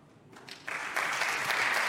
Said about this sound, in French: vous pouvez vous applaudir vous-même